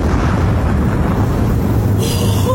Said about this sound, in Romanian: aruncă podul în aer. Trage sârma cu putere.